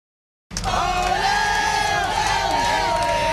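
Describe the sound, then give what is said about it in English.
Fans cheer and whoop as the Montreal Victoire women's hockey team steps off the bus hoisting the Walter Cup after beating Ottawa. After a short silence, a loud, dense crowd roar rises abruptly and holds steady, with shouts layered through it. “That is the sound of fans welcoming the Montreal Victoire as they got off the bus, hoisting the Walter Cup.”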